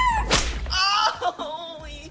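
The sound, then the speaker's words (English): A whip lashes a person with one sharp, loud crack, followed by a pained voice crying out. “She grins maniacally as she whips him.”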